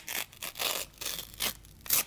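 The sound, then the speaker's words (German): Tearing open a packet of baking powder: crisp, crinkly rips and rustles in several short bursts, heard alone without any talking. “Eine Tüte Backpulver. So, jetzt mache ich es auf.”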